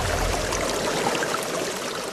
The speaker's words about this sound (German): soeben setze ich das Pumpwerk für die neue Wasserversorgung unseres Dorfes in Betrieb.